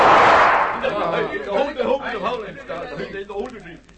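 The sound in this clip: A sniper's gunshot in thick jungle, one loud burst of noise that fades over about half a second, followed by a man talking.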